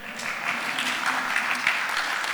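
Applause from an audience at a church youth gathering as a group member is recognized: a dense, steady patter of many hands clapping, moderately loud, with no voices over it.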